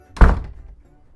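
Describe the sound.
A front door shuts as someone leaves home: one short, heavy low thud with a brief fading tail, alone.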